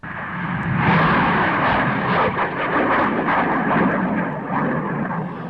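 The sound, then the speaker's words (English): A sounding rocket launch produces a loud, broad roar that swells within the first second, then holds steady and sustained for about five seconds, with no voices. “Sounding rocket launches, like the one you hear in the background, constituted another major chapter in the year's scientific investigations.”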